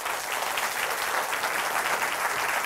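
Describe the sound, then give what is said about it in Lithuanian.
A hall audience claps to welcome a radio and television host onto the stage at an evening event in Utena, a dense, bright, continuous round of applause that holds steady the whole time. “Pradėkime, pasitikime plojimais.”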